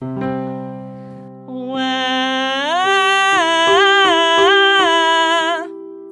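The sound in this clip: A singer demonstrates a nasal whine vocal exercise, sliding up into a bright sustained note and then stepping through a few held pitches over steady instrumental tones.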